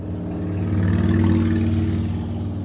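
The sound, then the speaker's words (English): Motorcycle passing by: a steady, low engine rumble swells slightly toward the middle and then eases off again. The sound is heard alone, with no voices. “That motorcycle. That was a motorcycle.”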